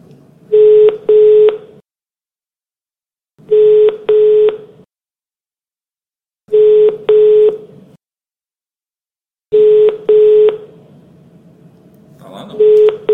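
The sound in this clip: Telephone tones as someone is phoned: four groups of paired electronic tone bursts repeating at a steady interval, with a brief noisy sound at the end.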